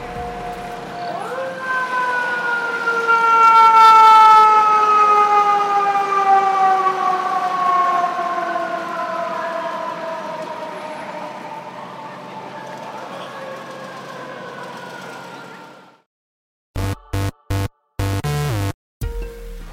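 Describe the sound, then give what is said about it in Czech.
Fire engine sirens passing along a New York street, a loud sustained wail whose pitch slowly sinks as it goes by, fading near the end before a few short loud blasts. “v New Yorku samozřejmě musí projíždět, to si asi vychutnáme všichni společně, projíždí hasiči.”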